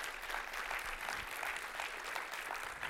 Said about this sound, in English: I think that deserves truly giving God glory with a hearty applause on that.